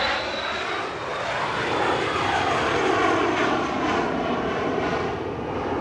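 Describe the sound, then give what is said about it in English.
Loud, steady roar of a jet aircraft taking off from the airfield at Farnborough, a broad continuous rumble that stays constant throughout with no talk. “there is an active airport airfield next to us here, so you will occasionally hear the odd jet taking off, which we may have to pause for.”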